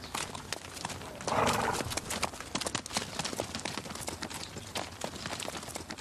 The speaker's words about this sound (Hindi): घोड़ों का दीवाना हूं मैं। ये घोड़ा देख रहे हो, 1.5 मिलियन का है। ये वो उधर जो देख रहे हो ना, वो 2.5 मिलियन का है।